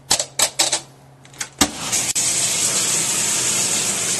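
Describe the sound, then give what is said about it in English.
A washing machine running: a few sharp clattering knocks, then a steady, loud rush of water that continues to the end. “What you're hearing is the sound of the NFL coach washing machine.”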